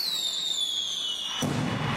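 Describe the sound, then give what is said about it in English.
Fireworks at a community display in a city park celebrating America's 250th birthday: a high whistle falls steadily in pitch, then a broad crackling burst erupts near the end. No voices are heard. “Tonight's the night. The Faber Area Fireworks Committee is celebrating America's 250th birthday at dark between 9:30 and 10 tonight in the Faber City Park at the soccer fields.”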